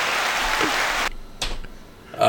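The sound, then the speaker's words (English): Short burst of applause running about a second, then cutting off abruptly, with a brief fainter flare of noise shortly after. “I'm going to give you an applause on that. That's pretty good.”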